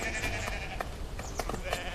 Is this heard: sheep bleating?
yes